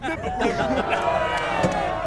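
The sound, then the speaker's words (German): Crowd cheering and shouting as a young man swings the hammer at a strength-testing game. Loud, steady voices fill the whole stretch, with excited calls rising above the hubbub. “Dem Jubel zufolge hat der Bursch am Hammer das Publikum beeindruckt.”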